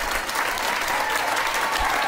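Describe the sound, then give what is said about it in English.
A crowd applauds and cheers a city council vote, a dense, loud, steady wash of clapping with crowd noise that runs unbroken throughout. “And look at them cheer like they just won the goddamn Super Bowl.”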